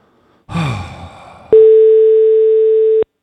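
A phone call back rings out as a single loud, steady, mid-pitched tone lasting about a second and a half. A brief breathy vocal sound comes just before it.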